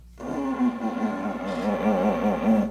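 Elk bugle call made with a lip ball inside a bugle tube: a buzzy, wavering tone with rich overtones, produced only by lip vibration with no voice added, held steadily for a couple of seconds after a quick start.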